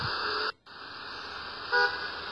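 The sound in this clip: A car horn toots briefly in traffic, one short tonal honk rising above steady, hissing road noise near the end, after a brief drop in the background sound.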